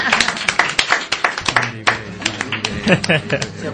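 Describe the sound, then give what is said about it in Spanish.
Applause from a seated audience: a dense burst of many overlapping hand claps that carries on steadily throughout, with people talking over it. “Un aplauso a mí.”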